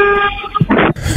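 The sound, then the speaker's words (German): A voice imitating a loud truck horn gives a brief, strained, buzzy honking tone that turns into a rougher burst before cutting off. “wenn du einmal ganz laut so ein richtiges Lastwagen-Hupen lieferst”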